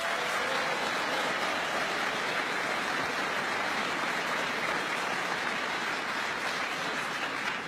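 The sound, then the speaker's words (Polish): Sustained applause greets Polish Prime Minister Mateusz Morawiecki at an official event, a dense, even wash of clapping from a large crowd that holds steady without a break. “Przywitajmy również serdecznymi brawami premiera, pana Mateusza Morawieckiego.”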